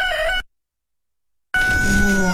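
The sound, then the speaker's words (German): A rooster crows loudly in two bursts. The first is cut off abruptly, then about a second of silence falls before the second, fuller crow. “Für den Start in den Morgen einen Hahn ans Bett bestellen?”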